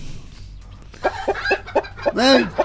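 Chicken clucking: several short, sharp clucks in an uneven rhythm, ending in a longer, louder squawk.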